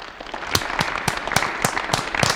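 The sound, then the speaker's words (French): Audience applause in a scene from the film Tandem: a few sharp, separate claps stand out over lighter scattered clapping in a loose, uneven rhythm. “Quand je lève les bras, vous applaudissez de toutes vos forces.”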